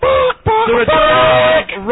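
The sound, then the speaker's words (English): A chicken clucks in a few short, loud, squawking bursts with brief gaps between them, each call nasal and harmonic with a slightly wavering pitch. “The chicken is back.”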